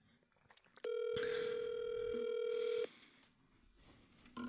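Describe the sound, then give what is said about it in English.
A telephone ringing: a steady electronic ringtone held for about two seconds, loud and even, then stopping abruptly. “What's ringing?”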